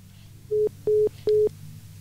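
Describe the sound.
Phone line tones as a call drops out: three short, identical steady beeps, evenly spaced and fairly loud against a low background hum.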